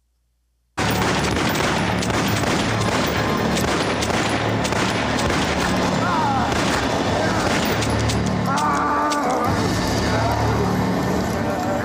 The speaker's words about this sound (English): So here's a very small clip of him in the middle of kicking some ass and shooting a gun and all that.